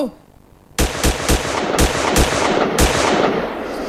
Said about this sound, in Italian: 1, 2, 3, 4, 5, 6 colpi, uno dietro all'altro